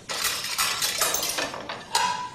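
A plate being handled at a home meal, with a series of bright clinks and clatters of crockery and cutlery, steady and moderately loud throughout, with a sharper knock near the end.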